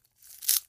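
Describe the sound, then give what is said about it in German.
A pet hamster crunching dry hamster food: a single brief, crisp crunch, fairly faint, rising quickly to a sharp peak and then fading away. “Das seltsame Knuspern, liebe Kinder, was ihr da gerade hört, ist übrigens Bommels Hamsterfutter.”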